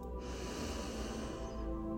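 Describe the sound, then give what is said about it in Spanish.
A forceful exhale during a breathing exercise: one long, steady rush of air that starts almost at once and holds, strong and even, to the end. “Exhala con fuerza. Inhala. Exhala con fuerza.”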